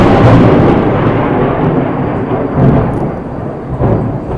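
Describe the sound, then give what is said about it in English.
Thunder rumbles through heavy rain, a deep, continuous roar with a few swelling peaks over the steady hiss of downpour. “I just told you about the heavy rain, so we had some thunder clapping just now.”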